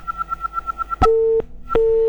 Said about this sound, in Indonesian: wah sebenarnya terputus ya teleponnya